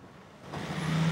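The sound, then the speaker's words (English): A black funeral hearse drives past and pulls to a halt, its vehicle noise swelling from quiet to a steady rumble within about a second. “A black funeral hearse passes her and pulls to a halt.”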